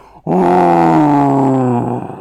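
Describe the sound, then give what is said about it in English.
A bull-headed monster bellows in rage: one long, deep, harmonic roar that starts abruptly and holds loud and steady for nearly two seconds before cutting off. “As if on cue, the bull man bellowed in rage.”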